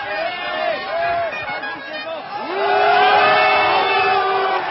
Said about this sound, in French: Sundhofen repart, appuyé par le public.